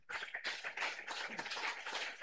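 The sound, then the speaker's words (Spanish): A church audience claps along during worship, a dense, steady patter of many hands running loud and continuous throughout. “Y un aplauso contento para Cristo Jesús.”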